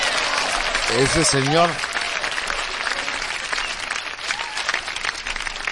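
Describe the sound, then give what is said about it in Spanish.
Applause with many hands clapping in a thick, continuous patter, a voice briefly calling out over it early on, the clapping then carrying on at a fairly even level to the end. “Don Jesús, de verdad, un corazón y un aplauso bien grande a él hasta el cielo”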